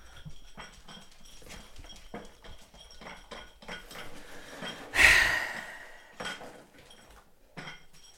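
Hungry dogs eat ravenously from their bowls with a run of small clinks and taps. One loud metallic clatter comes midway, followed by a few scattered knocks.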